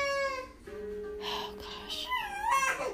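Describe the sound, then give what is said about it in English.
A fussy baby girl fretting and crying, with a few wavering, whimpering cries of shifting pitch and a steady tonal hum beneath them. “She's been so fussy. I don't even know what to do with her.”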